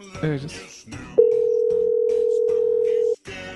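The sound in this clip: A telephone ringback tone sounds on a call as one steady, loud, mid-pitched tone lasting about two seconds, with people talking just before and after it.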